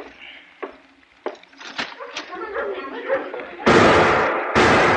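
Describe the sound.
Gunshots from an old trapper's gun in a frontier town: a few sharp cracks early on, then two heavy, booming blasts near the end, each trailing off briefly.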